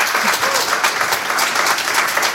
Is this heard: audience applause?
yes